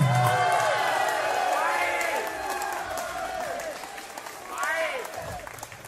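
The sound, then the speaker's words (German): Audience applause at a live dialect comedy show: a steady wash of clapping that fades slightly midway and swells again near the end, with cheering and voices mixed in. “Ja, gib mal so ein paar Hände. Wollt ihr noch eine Zugabe?”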